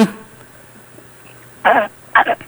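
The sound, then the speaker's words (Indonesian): Short, harsh coughs in two quick bursts close together near the end, the second breaking into a double hack, after a stretch of faint background hum. “Batuk.”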